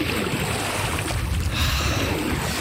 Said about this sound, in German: So klingt's am Losheimer Stausee gerade noch.